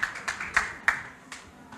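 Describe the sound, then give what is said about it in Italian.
Scattered handclaps from an audience, a handful of separate sharp claps spaced apart rather than a full ovation, fairly faint. “Un applauso ancora. Grazie mille ancora.”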